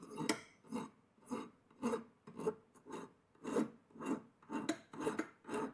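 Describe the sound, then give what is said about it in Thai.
Metal file rasping on metal in forward-only strokes: a steady series of regular rough scrapes, each about half a second apart, with no talk. “หลักการตะไบนะครับเราใช้วิธีการถูไปด้านหน้าอย่างเดียวนะครับ”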